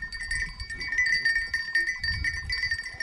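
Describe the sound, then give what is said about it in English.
A herd of farm animals is driven out to grazing fields early in the morning in Samburu County, Kenya, with livestock bells clinking steadily over low, shuffling animal sounds that come and go throughout. “Mpayon Loboitongo is taking her family's animals out to the grazing fields”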